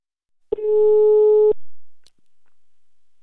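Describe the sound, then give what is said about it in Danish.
A telephone line rings as a call is placed: a single steady electronic tone lasting about a second, followed by a quiet, faintly hissing open line. “Lad os se, hvem vi har på linjen her. Nu ringer jeg op.”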